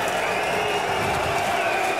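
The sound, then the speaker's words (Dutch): A darts crowd at the World Cup of Darts second-round evening session whistles at Dimitri van den Berg: a thick, constant din of many voices with steady, piercing whistles running through it and no break. “Ja, daar gaan ze echt niet minder van fluiten.”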